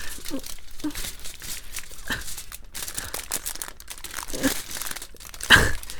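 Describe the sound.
Aluminium foil being crinkled: many irregular, crisp crackles and rustles run throughout, with a sharper burst near the end.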